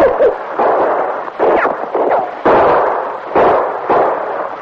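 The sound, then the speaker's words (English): A constable fires gunshots intermittently at a crook across snowy ground. Several loud, sharp cracks each trail off into a short rumbling decay, spaced unevenly over a few seconds. “While the constable fired intermittently to hold the crook's attention”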